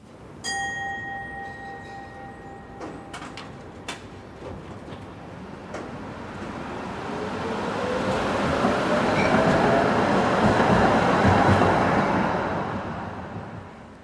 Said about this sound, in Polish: tramwaj.